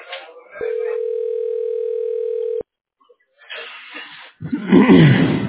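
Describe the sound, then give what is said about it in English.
A telephone tone sounds as a call is dialled: a steady, even, mid-pitched hum held for about two seconds. It cuts off abruptly into silence, followed by a few short, noisy bursts. “Dialing.”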